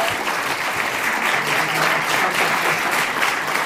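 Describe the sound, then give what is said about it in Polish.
Audience applause in a studio: continuous, dense clapping at an even, fairly loud level, with no pauses. “przede wszystkim brawa i oklaski”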